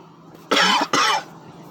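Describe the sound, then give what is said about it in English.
Two harsh coughs from someone choking on sweet tea: short explosive bursts in quick succession with a brief gap between them, and no speech. “I'm choking on sweet tea.”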